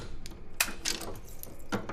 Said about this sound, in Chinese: 哎，娘给你试试这个箱子的锁啊。